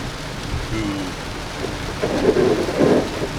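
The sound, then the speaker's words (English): Torrential, very heavy rain pours as a dense, continuous hiss and roar with low rumbling underneath, growing slightly louder in the second half. No talk is heard. “Sorry about this noise. It's just, I'm in a torrential downpour. Probably the heaviest rain we've ever had this year.”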